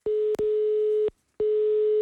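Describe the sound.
Ringing tone of an outgoing telephone call: a steady single-pitch tone in long bursts, briefly broken once, then a pause of silence before the tone returns.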